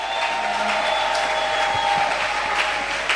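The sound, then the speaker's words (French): A church audience at a New Year service applauds and cheers the Lord with steady, even clapping that continues throughout, along with a faint sustained tone. “Est-ce qu'on peut acclamer le Seigneur pour cela?”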